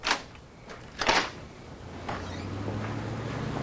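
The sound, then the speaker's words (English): Door being opened: a sharp click at the start, a louder clattering clack about a second later and a fainter click after that, followed by a steady low hum. “He goes to the door. Mason's on the other side. Who is it? Mason Whitney. Kevin opens the door.”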